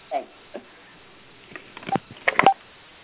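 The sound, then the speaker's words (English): Telephone dialing to place an outgoing call: a few faint, short tones and clicks, scattered at first and then bunched together near the end. “Okay, I'm going to have one dial out.”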